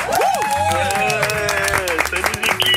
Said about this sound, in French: Applaudissements pour Mathieu.